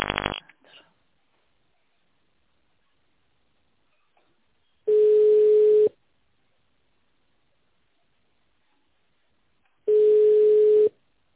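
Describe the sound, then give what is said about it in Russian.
Telephone line tones heard while calling a company: a short burst of tone at the start, then two long, steady ringing tones of about a second each, spaced roughly five seconds apart with silence between. “Звонили в компанию «Полигон».”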